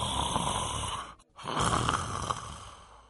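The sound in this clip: Soft snoring from people dozing off, a faint, raspy breathing noise that fades out briefly, then swells back and drags on, with no voices.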